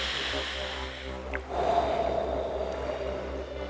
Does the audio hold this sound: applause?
no